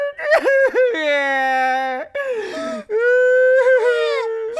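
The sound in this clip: Loud, drawn-out wailing and sobbing from a voice performing a character's crying while caught in a sticky cheese trap. It comes as a few long, strained cries with quivering pitch and short breaks, heard alone.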